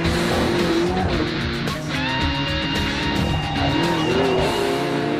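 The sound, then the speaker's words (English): Off-road race trucks racing in the Mojave Desert: a continuous, loud roar of engines with shifting, overlapping tones and no pauses. “This is the Mojave Desert. It's huge and quiet. Unless there's an off-road race.”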